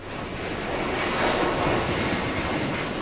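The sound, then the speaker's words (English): A passenger plane's engines roar as it takes off from the Canary Islands, a loud, steady, broad rushing noise that holds at nearly even strength throughout, with no talk. “That's the sound of their plane taking off from the Canary Islands.”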